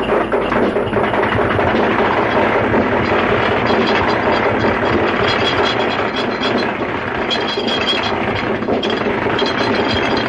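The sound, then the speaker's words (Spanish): A motorcycle with sidecar riding away from a desolate rural village, a loud, steady mechanical rattle and drone that continues unbroken for about ten seconds. “Los dos hombres descargan las cosas y el motorista se marcha en su moto con Sidecar.”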